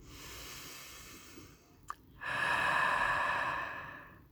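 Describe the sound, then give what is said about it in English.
A deep breath taken in and out: a soft, airy inhale, a brief click, then a longer and louder breathy exhale that slowly fades away. “Now let's take a second breath.”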